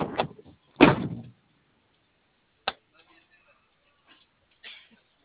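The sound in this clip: The door of a unit is opened, marked by a few separate clunks and clicks: a heavy rattling thud, then a sharp click, then a softer knock, each set apart by quiet.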